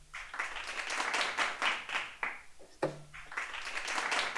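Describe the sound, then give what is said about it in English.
A canned applause sound effect plays very quietly, with clapping that comes in uneven swells, rising and dipping several times. “I don't know why that's quiet as fuck, but it is. Like, all these applause and laughter sound effects are just really quiet.”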